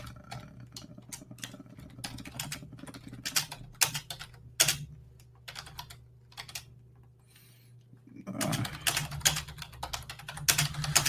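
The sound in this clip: Typing on a computer keyboard: a quiet stream of many quick, irregular key clicks in bursts, with a short lull near the end before the tapping picks up again. No voices are heard.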